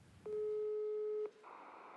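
Telephone ringback tone while calling someone: a single steady, mid-pitched tone lasting about a second, followed by soft line hiss.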